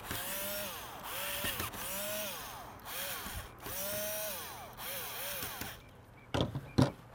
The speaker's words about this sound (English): I'm going to use a regular screwdriver for this one, because it doesn't seem to be cooperating well with my power screwdriver.